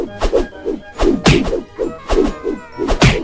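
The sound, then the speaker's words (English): Repeated punch impacts from a video game send enemies flying far away. Each is a loud whacking thud with a swishing tail, landing in a quick, uneven rhythm throughout. “Yeah, I can punch them really far off.”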